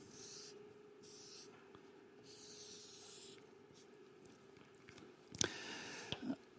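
A pen drawing on paper: faint, scratchy strokes come in a few short bursts, then a couple of sharper taps near the end, all quiet and alone.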